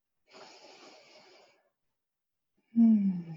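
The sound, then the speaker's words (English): A deep breath: a soft, airy inhalation lasting about a second, then a pause, then a louder, voiced exhalation that trails off. “And take another beautiful deep breath in.”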